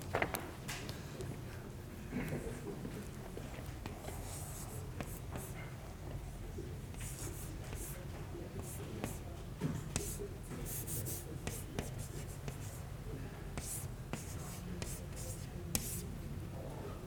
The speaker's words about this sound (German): Also diese Gleichung 359, ich schreibe sie nochmal hin.